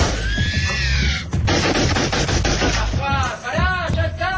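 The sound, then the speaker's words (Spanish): Men fire guns at fallen beetle creatures in a Spanish-language radio drama: a rapid run of sharp cracks amid dense layered noise, followed by shrill warbling cries. “Los hombres toman el distribuidor sin júbilo. Siguen descargando sus armas sobre los cuerpos exánimes de los cascarudos.”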